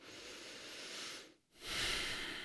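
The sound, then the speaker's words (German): Deep breathing with eyes closed during a calming exercise: a long, airy breath, a brief silent pause, then another fuller, louder breath with a soft hiss. “vielleicht mal Augen zu, ein paar tiefe Atemzüge.”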